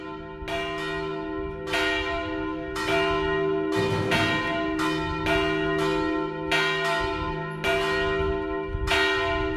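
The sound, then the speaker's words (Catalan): Church bells ringing for a festive procession, with many loud, resonant strikes in an uneven rhythm whose long ringing tones overlap and sustain between hits, with no voices. “que aviat tocaran les campanes perquè surti el segueix festiu”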